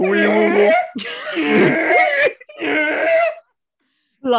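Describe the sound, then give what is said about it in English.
A voice imitates a Yeti call with loud, throaty howls and groans: three long, rough vocal bursts separated by brief gaps, then a silence, and the start of another cry at the end. “Take these megaphones and make Yeti calls to attract the beast. What precisely constitutes a Yeti call? It sounds like this.”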